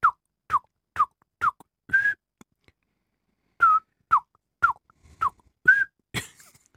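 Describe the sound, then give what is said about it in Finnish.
A person whistles an imitation of nightingale song in two runs of short, sharp notes. Most drop quickly in pitch and a few are held level, with a brief pause between runs. The whistling is fairly loud and heard alone. “Sehän on älyttömän kova se satakielen ääni.”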